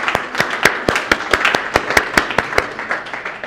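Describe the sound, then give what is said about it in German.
Applause for a worship band after a prayer: many sharp, distinct hand claps in a fairly steady rhythm, sounding like a smallish group clapping rather than a dense ovation. “Gebt einmal der Band nochmal einen herzlichen Applaus.”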